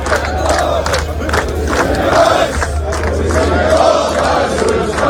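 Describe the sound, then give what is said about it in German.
Austrian football fans on a march in Texas before the Austria vs Argentina match chant and shout as one loud crowd, a dense, continuous roar of massed voices rising and falling in rhythmic swells. “Und seit einer halben Stunde läuft da in Texas aktuell schon der Fanmarsch.”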